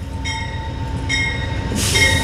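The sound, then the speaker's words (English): Amtrak passenger train from New Orleans to Chicago arriving at the Memphis station: a steady low rumble of rolling cars under sustained high squealing wheel tones that come and go, rising to a brighter, louder screech near the end; no voices. “Twice a day, the Amtrak between New Orleans and Chicago arrives in Memphis.”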